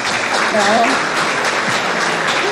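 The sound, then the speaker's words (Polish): Audience applause at a theatre award ceremony, loud and dense, as a continuous roar of many hands clapping, with a voice briefly heard above it early on. “Wielkie brawa, zapraszamy.”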